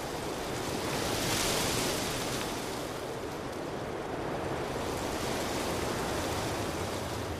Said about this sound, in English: A beautiful tree, an ancient tree, a tree which has woven itself into the very fabric of our heritage, the trembling beauty of the aspen.